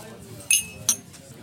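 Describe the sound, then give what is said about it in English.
Glass tumblers clink in a toast among friends in Burnley: two bright, sharp clinks, the second a moment after the first, over a faint background. “Right, clink away.”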